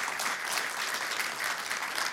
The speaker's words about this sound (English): Give God a hand clap of praise.